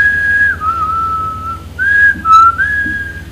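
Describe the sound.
A person whistles softly while working, pulling stakes outdoors: clear, sustained high notes that glide between a few pitches in short phrases, with brief pauses between them, heard alone over a low hum.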